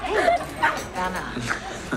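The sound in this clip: A dog whimpers and yips in several short, high, squeaky bursts that rise and fall unevenly, with brief pauses between them.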